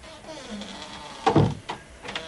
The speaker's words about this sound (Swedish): Och det skulle bara finnas dörrar sådär lite varstans som ledde en hit och en dit då. Ja visst, öppna den där bakom dig så ska du se att du hamnar i Sherwoodskogen där Robin Hood lever.